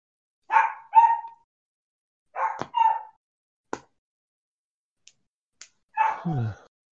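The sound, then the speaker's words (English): An aging dog barking in short bursts: two quick pairs of gruff barks, a few soft clicks, then a final longer bark that slides down in pitch into a whine, with silence between. “Doggo. Yes, that's my dog. My dog who is slowly falling apart.”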